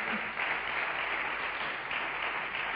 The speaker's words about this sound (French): Clap for Jesus. Acclamez pour Jésus.